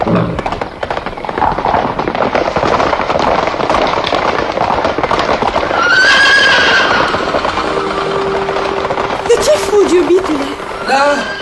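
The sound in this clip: A horse neighs and gallops: a continuous loud clattering rush of hoofbeats runs throughout, broken by a couple of high, quavering whinnies.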